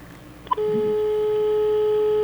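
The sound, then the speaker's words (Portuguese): After a dropped phone call, a brief click gives way to a steady, unbroken telephone tone that sounds clearly and alone to the end. “Olha, acho que a ligação caiu na tentativa de.”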